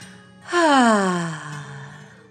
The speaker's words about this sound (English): Breathe in, filling your tummy with fresh air, and breathe out. Pretend fire is coming out of your mouth and softly,